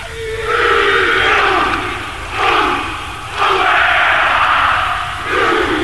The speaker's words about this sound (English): Inside the stadium, there was a traditional Maori welcome. First, the ceremonial rubbing of noses, a hongi, followed by a full warrior greeting.